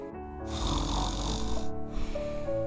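A person in deep sleep snores in two long, drawn-out rasping breaths, steady and fairly loud, with a faint whistling tone near the end.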